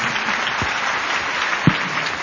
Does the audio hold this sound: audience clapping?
yes